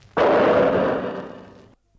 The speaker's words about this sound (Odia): ଗୁଳି ଚାଲି ଯାଇପାରେ।